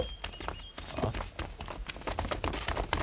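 A band of horses with riders carrying weapons approaches, their hooves clattering in a fast, dense, uneven clip-clop that stays steady and fairly loud throughout.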